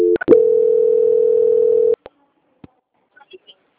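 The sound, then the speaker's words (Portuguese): A telephone transfer tone as a caller is put through to a bank's quality department: a couple of brief clicks, then one loud, steady, mid-pitched beep held for nearly two seconds, followed by a few faint clicks. “Eu vou estar transferindo o senhor para o setor de qualidade do Banco Santander, tá bom? Só um instante. Transferência.”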